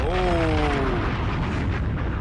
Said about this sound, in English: Oh, we could drop a bomb.